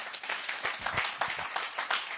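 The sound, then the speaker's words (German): Scattered applause from a church audience after a Sunday service, with uneven bursts of separate claps rising and falling at a modest, fairly quiet level. “Und ich finde, das ist mal wert, einen Applaus zu geben für die Leute, die das machen.”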